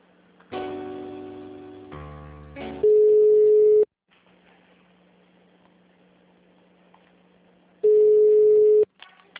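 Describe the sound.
A telephone line tone sounds while a call to a city hall is transferred to human resources: two long, loud, steady beeps several seconds apart, with other faint line audio before and between them.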